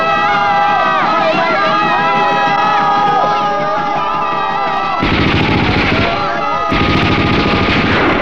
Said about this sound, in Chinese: 快点， 放枪！